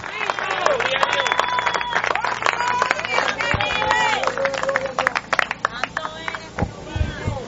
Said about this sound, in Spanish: Dele aplauso al Eterno.